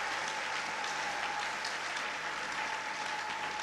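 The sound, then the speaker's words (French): A church audience applauds and cheers in praise, a steady, dense patter of many hands at moderate level, with a thin sustained tone running underneath. “Est-ce qu'on peut acclamer le Seigneur? Tunaweza shangilia Bwana.”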